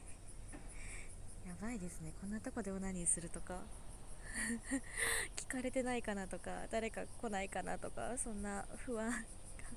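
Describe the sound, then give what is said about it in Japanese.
Cicadas sing in a park in a mostly residential area near a large road, a steady, high, continuous buzzing drone that stays under a voice speaking quietly throughout. “結構セミの声とか聞こえてて、”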